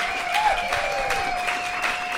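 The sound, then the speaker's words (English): Audience applause for a panel at the close of a live event: dense, steady clapping that holds at an even level throughout, with a faint sustained tone running beneath it. “How about a big warm round of applause for our panel tonight?”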